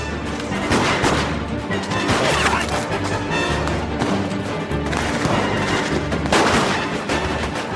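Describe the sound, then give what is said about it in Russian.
Pistol gunfire rings out during a shootout between police officers, soldiers and bandits: many sharp, loud bangs in an uneven, rapid volley that keeps going throughout. “старательно целясь, стреляет по бандитам из пистолета”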